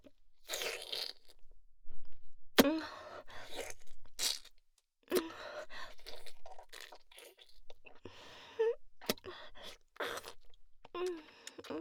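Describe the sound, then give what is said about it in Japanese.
Crunchy bites and chewing repeat many times in irregular bursts, loud, sharp crackles between quieter chewing and breathy sounds. “食べちゃおうっと。”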